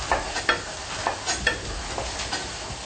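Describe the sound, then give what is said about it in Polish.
Flour is stirred into hot oil in a pot to make a roux, with rhythmic scraping strokes of the spoon over a steady sizzle. “Okej, olej już jest gotowy. Więc wrzucamy mąkę i robimy zasmażkę. Mieszamy.”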